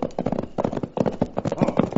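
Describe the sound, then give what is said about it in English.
Hoofbeats of a horse galloping toward the listeners, a fast, steady clatter of many quick thuds running throughout with no pause and no voices. “Then suddenly we heard the unmistakable sound of a horse racing toward us.”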